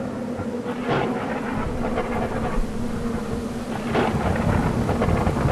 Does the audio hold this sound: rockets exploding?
no